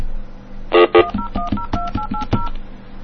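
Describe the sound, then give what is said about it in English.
A telephone number being dialed on a touch-tone phone: two louder, buzzy tones, then a quick, even run of short dual-tone beeps, with no voices. “I'm going to wait till I start dialing that number before I go back”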